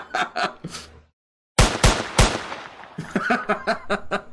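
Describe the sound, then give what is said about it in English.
Three sharp gunshots from a double-barrelled gun, fired in quick succession as loud, cracking blasts. Voices and chatter are heard before and after the shots. “He shot like three times, didn't he? He shot three times.”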